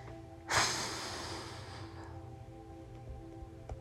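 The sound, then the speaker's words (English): A single rough, noisy exhale through the nose starts sharply and trails off over about a second and a half, loud against an otherwise quiet background. “Why'd you have to exhale like that? It sounded so rough.”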